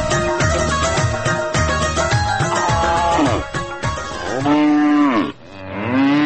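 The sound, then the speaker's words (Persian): Cows mooing in the milking section of a dairy farm: several low, drawn-out moos overlap into a loud, continuous chorus, with a few clearly rising and falling calls near the end and a brief dip just before. “فعلا ما در بخش شیردوشی فارم بینیسار هستیم و اینجا میبینیم که تعدادی از کارگرای مصروف شیردوشی گوا هستن”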